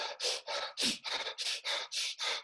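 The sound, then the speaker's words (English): A voice imitates hyperventilating with about ten quick, harsh, breathy gasps in a fast, even rhythm. The gasps are loud and heard alone. “have you ever seen someone hyperventilate before? Yeah. No. That's when someone doesn't have control of their breathing, right? So what they do is,”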